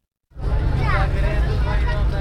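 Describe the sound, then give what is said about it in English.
A car drives through the streets of Kabul, its low, rumbling engine and road noise starting abruptly and staying steady, with faint voices underneath. “Driving through Kabul, we pass a school.”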